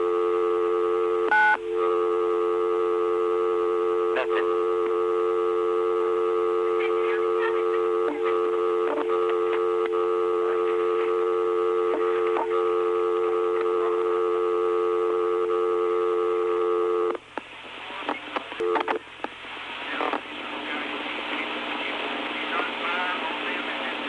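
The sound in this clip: Telephone keypad dialing tones on a phone line: steady electronic tones held for long stretches and broken by short clicks, giving way near the end to a noisier, crackling line.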